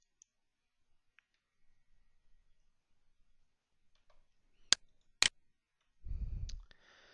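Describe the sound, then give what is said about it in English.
Two crisp computer mouse clicks in quick succession, sharp and isolated against near silence, with a few faint ticks before them. “Let's go ahead and click Configure Data Source, and we'll briefly walk through our Configure Data Source wizard.”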